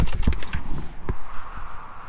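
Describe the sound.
Typing on a computer keyboard: a quick, irregular run of soft, muffled key clicks, with no voices.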